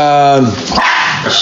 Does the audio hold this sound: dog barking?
yes